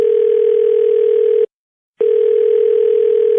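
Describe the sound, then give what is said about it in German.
A telephone tone for an incoming call sounds as one steady, loud, single-pitched tone heard alone. It cuts off briefly near the middle and then resumes unchanged. “Aber der liebe Hans hat mich einfach angerufen und mich nochmal daran erinnert. Hört doch selbst.”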